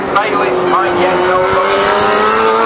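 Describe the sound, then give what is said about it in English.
A MotoGP racing motorcycle comes around a corner on a fast qualifying lap. Its engine gives a loud, high, sustained whine whose pitch creeps slightly upward, and a man talks over it. “The Biaggi coming around the corner right now. Currently in fifth on the qualifying. He might be on a fast lap right now.”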